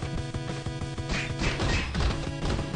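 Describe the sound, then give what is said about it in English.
A baseball bat strikes someone again and again in the video game River City Ransom HD, with many sharp whacks and crashing impacts coming in a fast, steady rhythm. “The blue guy says this is River City Ransom HD. That's basically what this is. Beat him with that wooden stick. Yeah. It's called a baseball bat. Beat him with that log.”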